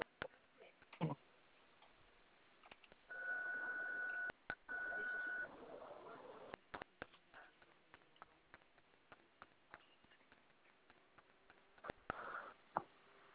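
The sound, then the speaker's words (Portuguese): Mobile phone keypad tones pressed during a call: two steady electronic tones sound mid-clip, separated by a short gap, among many sharp, faint key clicks scattered throughout. “é que tá clicando as teclas do celular, daí eu não tô conseguindo ouvir o que a senhora tá falando.”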